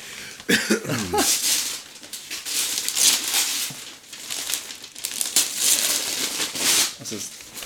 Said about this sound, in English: Just open it. Sticker on it. Oh, my God. That's so loud.